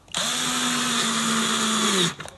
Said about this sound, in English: I'm screwing in some machine heads at the moment, so excuse me.